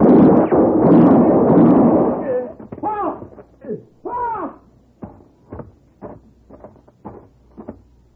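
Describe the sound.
A gunshot in a Western radio drama: a loud, broad blast that fills the first two seconds and trails off. It is followed by a series of short voiced sounds and thuds.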